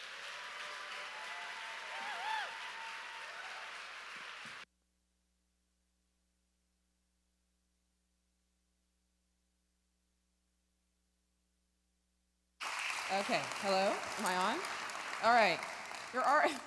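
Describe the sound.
A standing ovation for a speaker: a steady wash of clapping runs for several seconds, then cuts to a long silence before a person starts talking.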